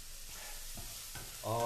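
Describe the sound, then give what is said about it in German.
Chorizo with onions and garlic cooking in a pan: a faint, steady sizzle with soft stirring, turning louder and fuller in the last moments. “Wir sind hier die Chorizo mit den Zwiebeln und dem Knoblauch vor sich hin gekocht.”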